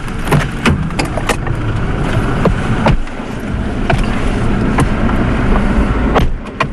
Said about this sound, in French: Au départ de Kitwe, nous sommes quatre dans un véhicule.